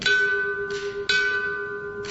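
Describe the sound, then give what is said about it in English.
A final alarm bell rings at a memorial service for firefighters, its clear, sustained metallic tone struck again about once a second, each strike followed by a long, slowly fading ring. “The final alarm bell rang as part of the memorial service for Bryan Fire Lieutenants Greg Pickard and Eric Wallace.”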